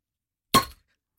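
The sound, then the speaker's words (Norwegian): A beer bottle being opened gives a single short pop with a bright glassy ring that dies away within a quarter second, with silence before and after. “det ikke så høyt trykk I ølflaskene. Nei. Men de har en veldig sånn, de skal liksom åpne seg med sånn, veldig fin lyd. Nå skal vi høre om vi får til dette her.”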